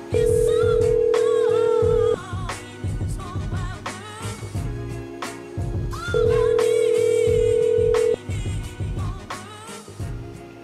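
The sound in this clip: A call being placed to a phone number: two steady ringback tones, each about two seconds long, separated by a silence of roughly four seconds, over a busier low background.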